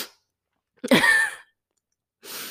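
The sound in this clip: A single sneeze bursts out in one short, sharp, noisy blast that rises quickly and cuts off, standing alone between quiet stretches, with no talking.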